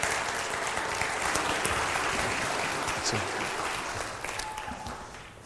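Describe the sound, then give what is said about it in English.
A church audience at Grandview applauds to welcome a returning missionary. Dense, steady clapping fills the whole stretch without a break and eases off slightly toward the end. “let's welcome Brother Morgan tonight, as only we can at Grandview, and let's give him a hand with him.”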